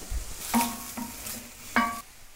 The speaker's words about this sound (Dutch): En dan roer ik het met een lepel af en toe om.